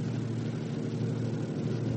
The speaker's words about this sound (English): Here comes a police car.